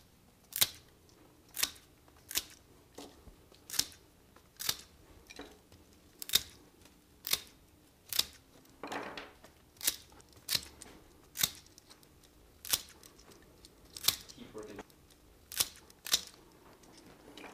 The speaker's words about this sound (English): Then we're going to take our bunch cutters and cut this off evenly.